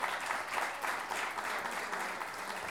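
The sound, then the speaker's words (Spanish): Audience applause at the close of a national pie forzado poetry tournament: a steady, dense wash of clapping that holds at an even level for its whole length, with no voices standing out. “Y por último, este gran aplauso es para ustedes mismos por estar acá.”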